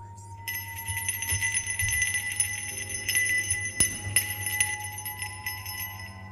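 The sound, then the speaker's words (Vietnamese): A small bell hung over a household altar jingles continuously at night, with a light, shimmering metallic ringing and irregular soft strikes, heard beneath speech. “ông Cập bị đánh thức bởi tiếng leng keng như là tiếng chuông.”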